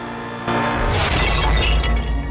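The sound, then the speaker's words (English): A cleaver smashes a ceramic lilac plant pot: a sudden loud crash followed by about two seconds of breaking, crumbling noise as the pot shatters. “He shatters one of the pots with the cleaver.”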